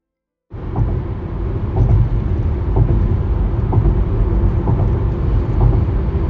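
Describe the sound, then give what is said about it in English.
A car crosses the Bay Bridge between Oakland and San Francisco, its tyres rolling over the rivets. A loud, steady road rumble begins abruptly, marked by faint rhythmic thumps in paired beats. “I don't know if you can hear that well, but I'm currently driving over the Bay Bridge that connects Oakland to San Francisco. And you better believe that I'm listening carefully to the rivets, the space between them, the tone of them.”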